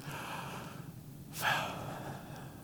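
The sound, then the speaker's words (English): A single deep breath, a brief rushing draw of air that swells and fades in under a second, faint over a low steady background hiss, with no talk around it. “It's like the sound that you make when you breathe deeply.”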